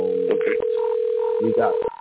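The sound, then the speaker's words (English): A telephone dial tone holds a steady, unbroken pitch while a caller is dialed into the show, with someone talking over it. “we got another caller. One second. I got to dial this number.”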